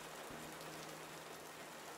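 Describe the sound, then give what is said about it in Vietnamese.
Heavy rain falls as a steady, even hiss of countless drops, continuous and quiet from start to finish with no voices. “Mưa lớn quá tôi thấy không rõ.”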